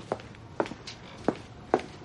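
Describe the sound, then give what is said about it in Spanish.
Footsteps of someone walking down a hallway in a home: four faint, separate steps with slightly uneven spacing, each a short soft thud against a quiet background. “Camina por el pasillo.”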